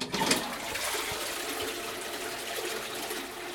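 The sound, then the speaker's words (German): A toilet flushes with a steady, full rush of water that swells briefly at the start and then holds an even gushing level to the end, with no voices. “Über das WC. Es ist ja praktisch, aufs WC gehen, bisschen spülen, Hände waschen, fertig.”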